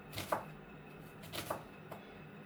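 Knife cutting through a soft new onion, giving a few faint, soft crisp cuts spaced apart, with no talk.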